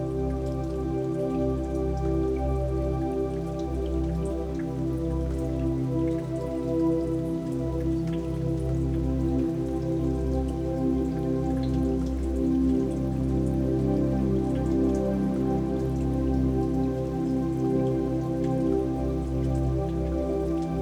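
Steady rain falls continuously, a dense even patter of raindrops on a surface that holds a constant level throughout, with a sustained low droning tone beneath and no voices.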